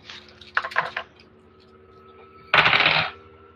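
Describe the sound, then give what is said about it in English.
Dice rolled for a skill check in a tabletop role-playing game: a brief rattling clatter, a pause, then a second, louder burst of tumbling. “And roll either psychology or intimidation and tell me what type of success you got.”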